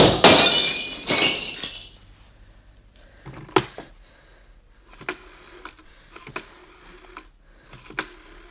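Window glass is smashed in two loud, crashing bursts close together at the start, each trailing off into the tinkle of falling shards, followed by a few sharp, scattered clinks of broken pieces.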